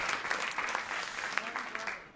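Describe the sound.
An audience breaks into applause, a crowd of hands clapping in a dense, even wash with voices mixed in, holding at a moderate level and ending with a sharp, separate clap.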